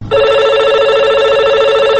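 A telephone rings for a listener call-in, with a steady, loud electronic ring tone that starts almost at once and holds evenly to the end, with no other sound.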